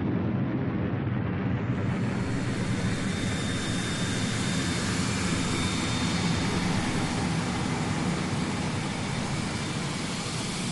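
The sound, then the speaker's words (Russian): Bright orange cargo drones fly above with buzzing motors, a continuous broad whirring roar that stays steady and fairly loud the whole time, with no voices. “а над ним, жужжа моторами, словно пчелы, летят ярко-оранжевые грузовые дроны.”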